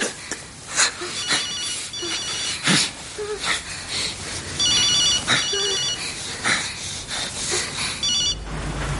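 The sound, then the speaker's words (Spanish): A telephone rings unanswered in a scene from a 2012 drama film, as a woman calls a man who does not pick up: several bright, repeated electronic ring bursts at moderate loudness over faint background sounds. “lo llama, pero él no atiende el teléfono.”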